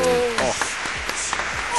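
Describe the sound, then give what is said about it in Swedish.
An applause sound effect plays during a radio quiz, a steady burst of clapping heard under people talking. “Åh, stora applåder.”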